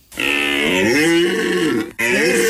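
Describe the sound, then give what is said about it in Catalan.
Red deer stag bellowing during the rut in the Pyrenees: a loud, deep, harmonic roar lasting nearly two seconds, its pitch rising then sinking, followed after a brief gap by a second bellow that starts up again. “La brama del cèrvol.”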